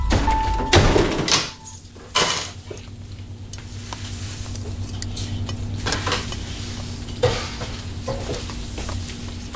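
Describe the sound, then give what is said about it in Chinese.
Pots and pans clatter during home cooking, with several sharp knocks early and a few more later. They sound over a steady low hum and a soft sizzle, with no talk. “那正好，我做饭呢”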